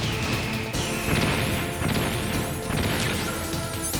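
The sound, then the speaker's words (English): A stinger or chaff grenade goes off in a video game: dense, noisy crashing and clattering bursts that run without pause, with a sharp change partway through. “So I'm gonna go ahead and throw out another stinger or another chaff grenade.”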